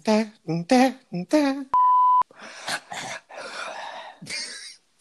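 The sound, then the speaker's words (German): Breathing close into a microphone: after some short voiced sounds and a brief steady beep tone, a few rough, loud breaths follow with gaps of silence between them. “ich habe gedacht, ich störe die Stille mit Atmen.”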